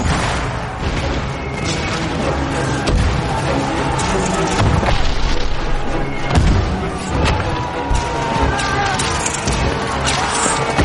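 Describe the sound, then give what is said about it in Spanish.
Bombs explode across a battlefield as soldiers charge from a trench, heard as a dense, loud, continuous roar of booms and rumbling crashes. A few heavier thuds stand out from the sustained wall of noise. “Corren por el campo de batalla. Las bombas explotan a sus lados.”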